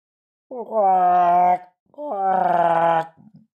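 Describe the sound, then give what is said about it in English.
A person imitates a swan call with two long, wavering, moaning vocal cries, each about a second long, with a rising start and a steady, harmonic-rich middle, followed by a short grunt at the end. “Perhaps we better call those swans over. Dear Lord, I've got to do my swan call.”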